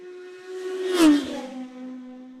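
Racing sidecar outfit passing at speed while holding one gear, its engine a steady whining tone that swells to a loud peak and then drops in pitch as it goes by.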